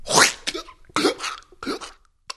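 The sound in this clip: A male voice actor performs a throat-slitting death sound for a video game: a few harsh, breathy, strained gasps and choking bursts separated by short pauses, ending with a brief sharp click.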